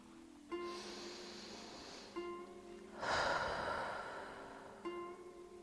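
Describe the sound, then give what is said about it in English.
Slow, deep breathing, one long soft inhale followed by a fuller, breathy exhale, each a gentle rush of air heard over a steady, sustained tonal drone. “take this time right now just to breathe”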